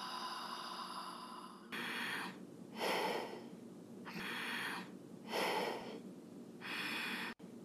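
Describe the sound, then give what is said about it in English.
Breathing demonstrated by a person, a series of soft, airy inhales and exhales at a slow, even rhythm, faint over a steady low background hum. “Now breathe like this.”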